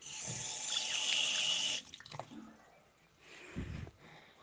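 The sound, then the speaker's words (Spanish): Hands being washed under a running tap: a steady hissing stream of water that cuts off, followed by a few soft splashes and wet squishes. “Me lavo las manos.”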